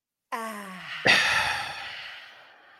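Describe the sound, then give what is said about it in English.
Deep breath in and out: a short voiced intake with a gliding, falling tone, then a loud, breathy exhale that starts abruptly and fades slowly over about two seconds. “Deep breathing. Ugh, my bit went too far. I'm actually changing. Let's take a deep breath in.”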